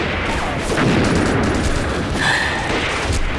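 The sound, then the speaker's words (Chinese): Dense gunfire in a video game: a rapid fusillade of overlapping shots blending into a constant loud crackle with no clear gaps. “紧接着他们开枪。”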